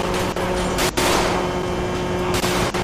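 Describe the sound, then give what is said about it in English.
Gunfire in a police video game comes as a dense, continuous volley of loud shots that keeps up without a break. “Oh snap, got shots. We got shots fired. Shots fired.”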